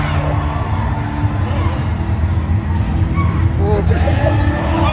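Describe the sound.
Crowd cheering and shouting after a hockey player's slap shot: a dense, steady wash of voices with whoops and calls layered through it, holding loud and even for the whole stretch.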